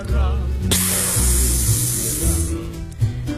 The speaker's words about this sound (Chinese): 旁边的胶囊舱传出阀门活动的抽气声